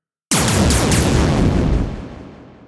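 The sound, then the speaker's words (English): Booming sci-fi weapon fire from a spaceship in a story sound effect: a sudden heavy blast with a few quick pulses inside it, staying loud for over a second before slowly fading out. “The 4 shots eliminate the formation of target fighters entirely.”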